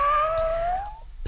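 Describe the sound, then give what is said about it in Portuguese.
A single drawn-out cat meow, a clear steady tone that rises gently in pitch for about a second before breaking off, heard alone. “Manda um miado pra mim.”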